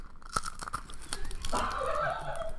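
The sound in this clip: Crunchy food is chewed up close. A few crisp, separate crunches come first, then a denser, continuous grinding crunch.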